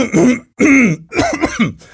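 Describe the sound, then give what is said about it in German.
A person clears their throat in a few harsh, throaty bursts, like a small coughing fit. There is no talk in between. “sondern war der klassische Hustenanfall bei einer Corona-Meldung.”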